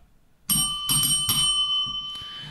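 A small hand bell is struck three times in a brisk, even rhythm, each strike giving a bright, high, ringing tone. A fainter fourth tap follows as the ringing lingers and fades.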